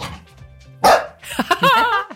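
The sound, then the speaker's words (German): A dog barks once sharply, then gives a longer, wavering vocal yowl with a few pulses of loudness, all short and fairly loud, with no talk over it. “Stella ist auch da. Das war der Beweis. Weißt du eigentlich, dass Hunde eigentlich nie ohne Grund bellen?”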